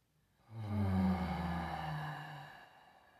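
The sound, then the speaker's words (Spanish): A deep breath taken during a guided breathing exercise: one long breathy sound with a low voiced tone that sinks in pitch, swelling quickly and fading over about two seconds, heard alone. “Otra vez, inhala.”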